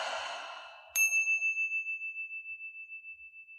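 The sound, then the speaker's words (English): A meditation chime is struck once, giving a bright ringing tone that fades slowly with a gently wavering shimmer. A soft breathy exhale comes just before it. “when you hear the sounds of the chime, coming back into this space”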